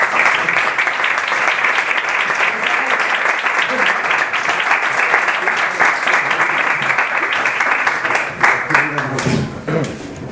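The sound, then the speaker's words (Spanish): Sustained audience applause at a poetry recital with live drawing, loud, dense clapping that holds steady for about ten seconds, then thins near the end as a voice begins. “Un aplauso para Patricio.”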